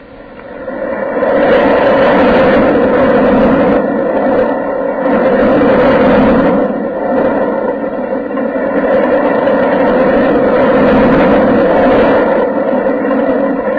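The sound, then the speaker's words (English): Roller coaster ride with a steep dip: a loud, continuous mechanical roar and rumble with a steady hum running through it. It sustains for about thirteen seconds, easing briefly near the middle. No voices are heard. “the next thing I want to know is how to take a ride on the roller coaster”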